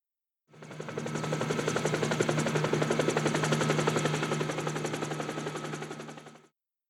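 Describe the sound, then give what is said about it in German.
Helicopter rotor chopping in a steady, rapid thudding beat over a broad engine roar, fading in, holding loud and even for several seconds, then fading out. “Hubschrauber.”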